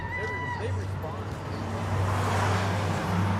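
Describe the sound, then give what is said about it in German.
A car driving on a road in southern California between San Francisco and Los Angeles, with a steady low engine drone and road rumble that swells slightly toward the end, faint indistinct voices early on. “Wir fahren in den Süden von Kalifornien, von San Francisco nach Los Angeles.”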